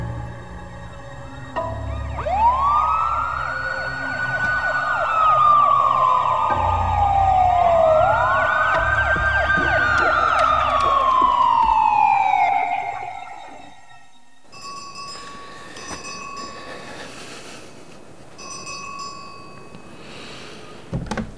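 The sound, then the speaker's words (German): An alarm siren wails in two long rising-and-falling sweeps, loud and alone, then cuts off and gives way to a quieter patterned tonal sound. “Alarm!”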